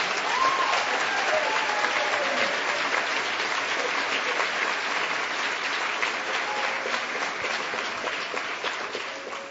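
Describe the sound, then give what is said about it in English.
Sustained applause from an audience: dense, even clapping that holds steady and tapers slightly toward the end. “that rivaled the applause you asked for”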